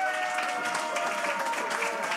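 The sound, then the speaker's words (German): Faint, steady applause from a seated audience at a live Frühschoppen gathering. It holds an even, dense texture throughout, with a thin sustained tone running underneath. “darf ich mal Dankeschön sagen für den tollen Applaus, fürs Mitmachen.”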